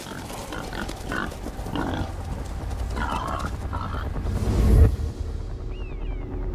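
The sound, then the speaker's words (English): Wild boar in the Forest of Dean grunt and snort in a run of low, rough calls, with a louder burst just before the end. “The Forest of Dean's boar are thriving, and it's quite possible that soon they'll be coming to a forest near you.”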